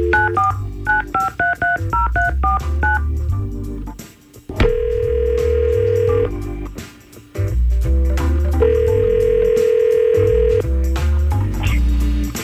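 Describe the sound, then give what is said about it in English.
Touch-tone keypad dialing of a telephone call: a quick run of many short beeping tones, then two long, steady ringback tones separated by a pause. “We're going to try to call him right now and see what's going on with Joseph.”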